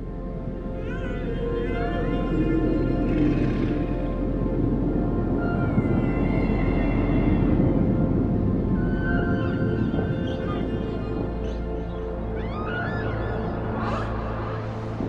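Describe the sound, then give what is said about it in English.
Humpback whale song: drawn-out moaning and whistling calls, several sweeping upward in pitch, rise over a steady low rumble and continue throughout. “Birds have song. And other whales have song. But humpback song is even more elaborate.”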